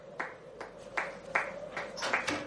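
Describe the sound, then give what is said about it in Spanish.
Slow, deliberate hand claps from a character seated in a bedroom, applauding in a comedy film scene. Several soft, evenly spaced claps sound over a faint steady background. “Pablito se marcha enfadado a su habitación, donde está el ángel de la guarda sentado aplaudiéndole.”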